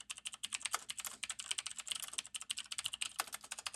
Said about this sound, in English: I just typed your name in the app